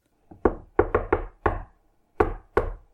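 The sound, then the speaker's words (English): Knocking on a door: about eight sharp raps in uneven clusters, starting with a faint tap, then a quick run of knocks, a single knock, and a final pair after a pause. “Don't bother using the doorknob. Just batter it down.”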